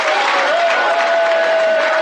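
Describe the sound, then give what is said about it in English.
Audience clapping hands in an audience, a steady, dense wash of applause that holds at an even loudness throughout, with a sustained musical tone running beneath it. “Clap your hands, you people.”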